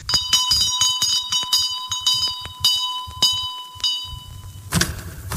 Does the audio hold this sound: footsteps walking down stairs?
no